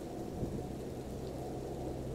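Heavy rain with thunder: a dense, unbroken low roar of downpour and rumble that holds steady throughout, with no voices.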